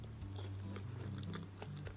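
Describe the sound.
Soft, moist biting and chewing on a convenience-store Vietnamese coffee flavoured cream puff, its cream oozing out. Quiet squishy mouth sounds repeat over a steady low hum.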